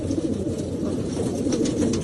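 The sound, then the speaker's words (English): Pigeons coo in a low, steady murmur that runs through the whole clip, over a broad hiss of background noise. “Look, the birds here are safe.”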